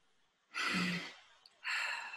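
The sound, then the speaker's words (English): A deep breath is heard as two loud, airy rushes of air separated by a short pause, with no one speaking. “So take a nice deep breath and ground yourselves.”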